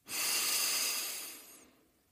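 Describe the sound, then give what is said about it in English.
A deep breath drawn in during a guided meditation, a soft breathy hiss that swells quickly, holds, then slowly fades away alone. “let's settle in and take a deep breath.”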